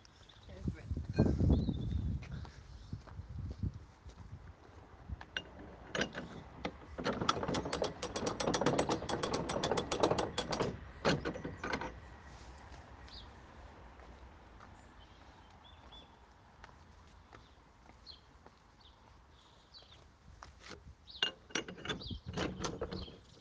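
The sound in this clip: Lock paddle gear is wound open at a canal lock between Winkwell and Tring, giving bursts of rapid ratcheting clicks with mechanical clanks, then quieter stretches as people talk.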